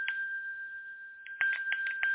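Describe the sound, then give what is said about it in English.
A bell rings quietly with a steady high tone, then a few quick, evenly spaced pulses of ringing follow near the end. “I don't know what that is. That's the bell.”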